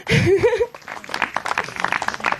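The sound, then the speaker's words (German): Audience applause at an evening show on the Wartberg: a voice briefly at the start, then a continuous patter of clapping that carries on steadily to the end. “Applaus.”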